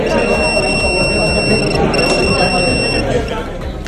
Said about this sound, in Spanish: que realizan barridos aleatorios para detectar el uso de dispositivos electrónicos y de transmisión de datos, lo que es copiar basándose en la inteligencia artificial. En caso de que se localice uno, suena esto.